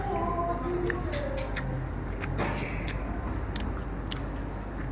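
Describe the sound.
Someone in Japan is chewing braised Korean beef short ribs (galbi-jjim). The soft, wet bites and crunches are faint and continue steadily under a low background hum.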